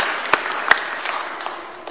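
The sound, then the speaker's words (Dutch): Thin applause at a children's Christmas performance with instruments, fading steadily, with a couple of sharp, isolated claps standing out early on. “En ook even een applausje voor iedereen die verder heeft meegewerkt, ook voor jullie zelf, hier zo.”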